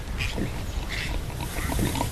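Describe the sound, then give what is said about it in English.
A newborn piglet, the first of a litter, gives short grunting squeals over constant rough, rustling background noise. “Oh, look, there's an actual piglet. It's the first baby ever.”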